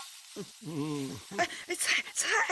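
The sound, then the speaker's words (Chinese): Vegetables sizzle as they are stir-fried in a pan, a steady hiss running beneath a voice, then growing brighter and busier with bursts of crackling in the second half. “菜别炒糊了。”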